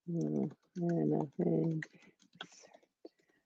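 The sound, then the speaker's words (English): Typing on a computer keyboard: a short, irregular run of light, quiet key clicks. “I'm going to type it out.”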